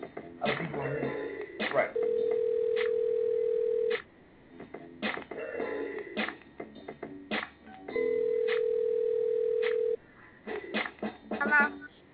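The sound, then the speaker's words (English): An outgoing phone call rings while waiting for someone to answer: two long, steady ringback tones, each lasting about two seconds, with people talking before, between and after them. “All right. We about to be on the line. Let's see if he's going to answer the phone.”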